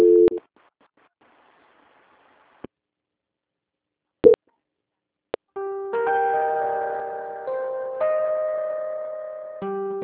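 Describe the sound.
Telephone line tones play during a call transfer to another department: a short tone opens, a few isolated clicks follow through a near-silent stretch, then a steady stepped series of tones runs without a break to the end.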